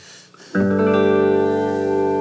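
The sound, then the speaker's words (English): Reverb from a Big Sky reverb unit washes over a sustained, harmonically rich chord that swells in after half a second of near silence and then holds steady and full, ringing out without fading. “I love reverb. So, I mean, naturally, it's got this.”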